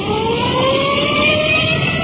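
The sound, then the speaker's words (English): A police car siren on an emergency run wails in a sustained, slowly rising tone over a continuous engine rumble. “We've put in our siren, rolling code 3.”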